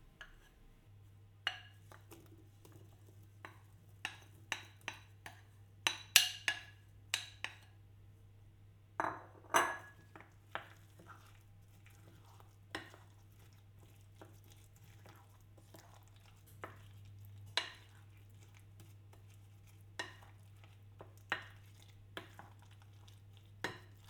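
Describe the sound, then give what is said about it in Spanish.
A wooden spatula stirs fresh fruit into cream for a clafoutis: many soft, irregular scrapes and light knocks over a steady low hum, quiet throughout, with no talking. “Añadimos por fin las frutas frescas a la crema anterior y la mezclamos con una pala de madera.”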